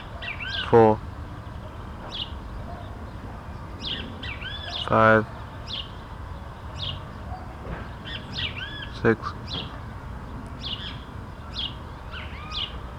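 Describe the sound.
A great kiskadee calls from a tree: three loud, harsh, harmonic calls stand out over many fainter, high chirps scattered throughout.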